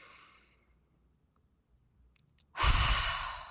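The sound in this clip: A deep breath drawn in before speaking. A faint exhale and a near-quiet pause lead into a sudden, loud, breathy rush of air that holds steady to the end.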